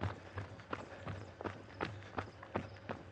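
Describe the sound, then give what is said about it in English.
Footsteps of a person running, a steady regular beat of impacts at roughly three per second over a low constant hum, no talk. “moving time as I start to run again. I won't listen to music just yet.”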